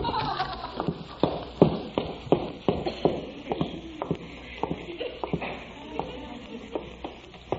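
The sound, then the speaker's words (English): Footsteps going downstairs in a house, a steady series of many soft thuds and scuffs in an even walking rhythm. “Wonder if there's anything downstairs in the refrigerator. I'll go downstairs and look.”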